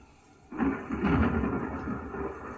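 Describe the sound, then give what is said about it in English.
Thunder rolls in abruptly after a quiet half second, a deep, broad rumble that swells and then holds steady to the end, with no voices. “Thunder rumbles.”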